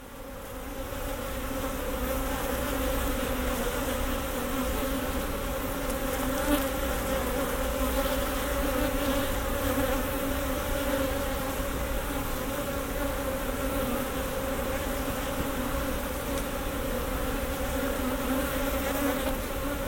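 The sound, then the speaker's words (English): A swarm of honeybees buzzes all around the heads of beekeepers in white protective suits, a dense, continuous hum that holds steady and fairly loud throughout, with no voices. “The bees are zooming all around our heads.”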